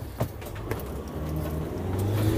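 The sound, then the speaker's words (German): A car's engine runs with a low, steady hum as the driver prepares to reverse into a pedestrian zone. A couple of faint clicks come early, and the rumble swells slightly toward the end. “Ich muss jetzt was schaffen, beziehungsweise mein Auto rückwärts in die Fußgängerzone reinfahren.”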